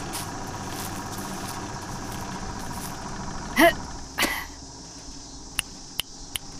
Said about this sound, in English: The generator's running.